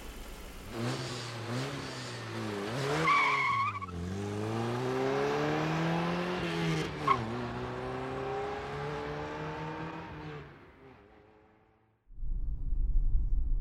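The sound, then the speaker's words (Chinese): A sports car engine revs and accelerates, its pitch rising and falling in smooth sweeps and holding a steady drone. Near the end the engine sound fades out, and a different low sound comes in. “这还是我第一次坐跑车呢，借你的光了。”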